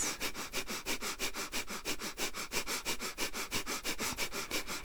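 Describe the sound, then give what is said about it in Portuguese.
Rapid, rhythmic breathing in through the nostrils during a guided breathing exercise: many quick, forceful sniffs at a steady fast pace, continuing throughout with no talk. “Quanto mais você respira pelas narinas”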